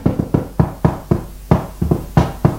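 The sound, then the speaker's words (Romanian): Rhythmic tapping that imitates a telegraph dispatch: many sharp, moderately loud knocks in uneven groups of quick and spaced beats, with no voices. “Când sunt la slujbă scumpă și bat vreo depeșă, adesea mi se întâmplă să bat în loc de adresa al tău prenume dulce și nume drăgăstos. Ascultă, ascultă cât sună de frumos.”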